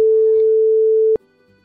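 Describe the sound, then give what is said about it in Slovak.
Ringback tone of an outgoing telephone call: one steady, mid-pitched beep holds for just over a second and then cuts off, leaving only a faint low hum. “tak idem volať niekomu z vás.”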